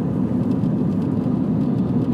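Steady road rumble and engine drone from a car on a drive from Campbelltown to Hobart, a continuous low, even roar filling the whole clip with no talk.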